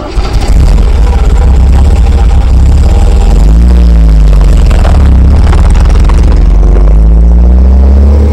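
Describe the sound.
A taxi engine in Dibrugarh rumbles loud and low without a break, and its pitch climbs in brief revs as the vehicle pulls away.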